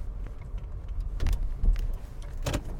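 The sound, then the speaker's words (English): Low rumble of a car pulling out of a driveway, a steady engine hum broken by a few brief clicks and knocks, fairly quiet with no talk. “Pulling out of my driveway this morning.”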